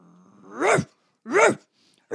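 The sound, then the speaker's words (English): A person imitates a dog with their voice: two loud, rough bark-like calls about half a second apart, a further call beginning at the very end, each bursting out sharply and falling off quickly. “you know what I can actually do is a dog bark. I can actually do a dog bark.”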